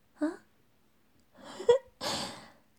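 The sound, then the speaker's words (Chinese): Heavy panting breaths, a few short gasping exhalations separated by pauses, some voiced and breathy, rising in force toward the end. “看你呀，都大喘气了，别心急呀”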